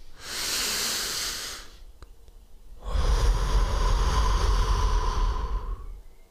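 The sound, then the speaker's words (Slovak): A deep breath drawn in through the nose makes a soft airy hiss for nearly two seconds. After a short pause, a longer, louder rush of air follows. “Skús sa teraz hlboko nadýchnuť nosom.”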